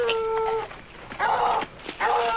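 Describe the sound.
A lame, crippled dog howls, starting with a thin tonal wail and following with a couple of short whimpering cries, all fairly faint.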